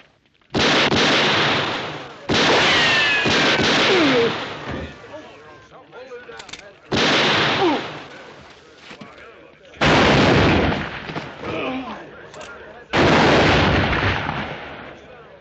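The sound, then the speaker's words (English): Gunfire in a Western shootout at a hanging party: several heavy, loud shots fire a few seconds apart, each bursting sharply and ringing out in a long decay, with quieter stretches between them. “That's enough shooting.”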